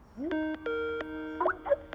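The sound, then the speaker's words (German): A telephone rings with a few bright, chime-like electronic tones that ring out and then break into a quicker, warbling figure near the end. There are no voices. “Telefon”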